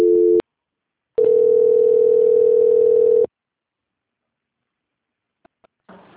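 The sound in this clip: A telephone call transfer tone plays as a short steady beep, then a longer, steady single-pitch tone of about two seconds, followed by silence, faint clicks and a brief rustle at the end.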